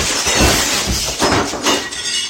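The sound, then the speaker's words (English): Window glass shatters after being struck by a shot ball. Dense, loud crashing noise runs throughout, with repeated crackling surges as the pane breaks apart. “Uh-oh. I broke the window. Okay, quick, glue? No. Tape? Nuh-uh, it's shattered.”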